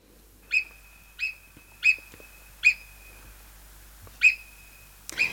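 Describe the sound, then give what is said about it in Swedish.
Marmot alarm whistles: five sharp, high, piercing calls at uneven intervals, each short with a thin trailing tone. A noisier burst follows at the end, in quiet surroundings with no voices. “Rätt svar är murmeldjur”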